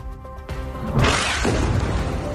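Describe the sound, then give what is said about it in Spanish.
Bombardment on the outskirts of Gaza City: a dull thump, then a broad roaring blast that swells and lingers as a rumbling wash to the end. “Este bombardeo es de hace unos minutos, de modo interrumpido desde esta mañana”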